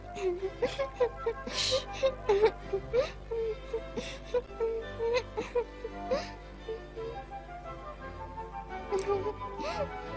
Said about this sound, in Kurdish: دەی پێیام، بەسە، چیتر مەگری.